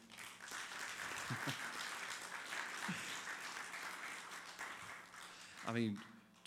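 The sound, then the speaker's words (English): An audience applauds to welcome a guest with sustained, even clapping for about six seconds, fairly faint, and a brief voice is heard near the end. “This is Tony Young. Would y'all welcome him?”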